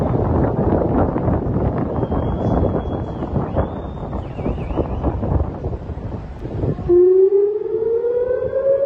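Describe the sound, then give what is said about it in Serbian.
Air raid sirens sound on a Saturday evening in Israeli cities including Jerusalem and Tel Aviv. Heavy wind rumble dominates at first under a faint high whine, then a loud siren wail with rising pitch and strong overtones takes over. “Zvuk sirena za vazdušnu opasnost odjekivao je u subotu uveče u Jerusalimu, Tel Avivu i drugim gradovima na severu Izraela”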